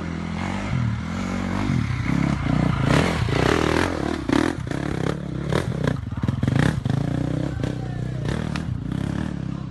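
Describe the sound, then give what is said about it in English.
Dirt bike ridden up steep, tricky sections, its engine buzzing and revving in bursts amid clattering and scraping from the rough ground, loud and continuous throughout. “Now, the next clip is me on a dirt bike. And look, videos of dirt bikes never show how tricky or how steep the sections are. But anyway, have a look at this.”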